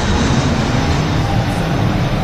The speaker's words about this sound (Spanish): que era el ruido del avión que escuchábamos antes. Este es el Madrid-Barajas,